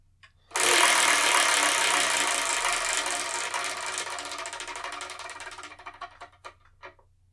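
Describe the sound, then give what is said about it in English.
A spinning prize wheel rattles: a sudden, dense, loud clatter of rapid clicks starts after a short pause, gradually fades and slows, and ends as a few separate ticks. “let's get to that part you want me for, the wheel, and let's spin and see what we're going to review”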